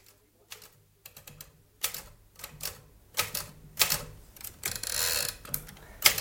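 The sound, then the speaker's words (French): Keys clack on a children's typewriter in irregular bursts of quick taps, separated by short pauses, with a few louder strikes standing out among the lighter ones. “C'est une machine à écrire pour enfants, mon cher Émile.”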